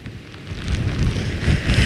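Wind drives sleet and rain across Hörgársveit in Iceland, a rough, gusty roar that swells in uneven surges and grows louder toward the end, with no one speaking.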